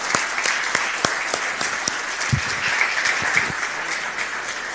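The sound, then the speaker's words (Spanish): Applause from a church audience welcoming first-time visitors during a Sunday service: dense, steady clapping that carries through the whole stretch with many sharp individual claps. “A todos los que están por primera vez, los recibimos con este aplauso”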